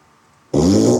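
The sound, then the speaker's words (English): A fart from a gassy pregnant woman, one sudden loud, buzzy blast that starts midway through and holds steady to the end, with no voices. “Oh my god, I already had these, like, really bad pregnancy farts and everything, too. Like, I'm so gassy.”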